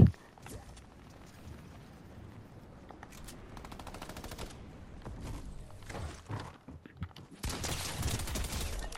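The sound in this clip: Rapid automatic gunfire from a video game: a dense stretch of quick shots mid-clip and a few scattered single shots, then loud, sustained fire that fills the final seconds.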